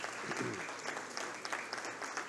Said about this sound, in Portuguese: Pedimos mais uma vez uma salva de palmas, professora Almerinda.